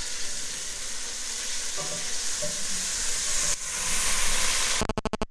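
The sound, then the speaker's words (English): Pieces of steak sizzle and spit in hot oil in a pan. A loud, steady frying hiss carries on and swells slightly, then breaks into several short, choppy bursts at the very end. “an empty bowl and a full bowl of steak ready to go in. That oil's quite hot.”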